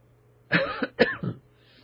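Two quick, fairly loud coughs from a person with a tickle in the throat, close together and followed by quiet, with no talking.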